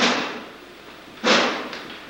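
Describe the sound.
A window being closed: two dull thuds, one at the very start and a louder one about midway, separated by quiet.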